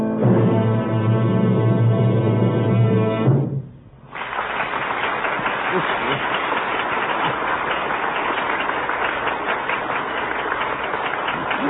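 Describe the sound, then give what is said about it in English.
A concert audience gives an ovation, with loud, dense applause that starts right after a few seconds of music stop. The clapping then stays thick and continuous to the end. “It's the greatest ovation he's ever had. He's going to play an encore.”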